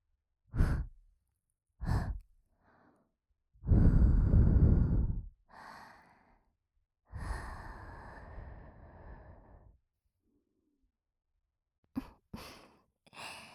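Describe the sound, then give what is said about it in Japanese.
Soft, close-up breathy sighs and exhales, roughly ten of them and varying in length. Several are long and airy, others short and faint, all separated by near-silence, with no talking. “こんな近くから吐息をもらうなんて思いもしなかったでしょう。”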